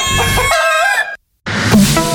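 A rooster crows loudly in two harsh, strained stretches split by a brief gap of silence, the second burst rising into a rough, bright cry.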